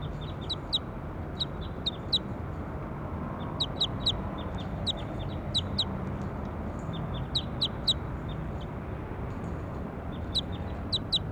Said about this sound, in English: That was bird two, now I'm going to go back over to bird five. Start recording bird four.